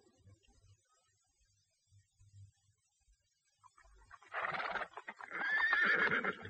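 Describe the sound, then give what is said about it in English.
A horse on a ranch at night, being coaxed with sugar, neighs: a loud, wavering whinny in two surges that rises out of near silence after a few faint, soft thumps. “Come on, boy. Come on. I've something you'll like. Yes. Sugar. All horses like sugar,”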